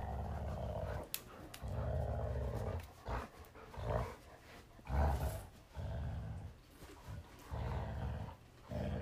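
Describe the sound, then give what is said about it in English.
A black Labrador growls while playing tug with a toy. Many low, rumbling growl bursts come in uneven pulses, fairly faint, with short gaps between them. “Addie the Black Lab. She's the one in charge of the tug toy operation.”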